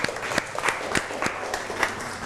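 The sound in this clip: Faint applause: a steady patter of hand claps with a few sharper individual claps standing out, continuing evenly throughout.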